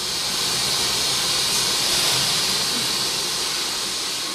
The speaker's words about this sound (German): Jetzt hören wir die Hochdruckpumpe für die Flüssigkeit und sie fährt jetzt langsam an.